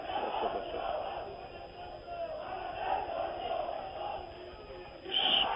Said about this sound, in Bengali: সবাই দয়া করে স্লোগান বন্ধ করবেন।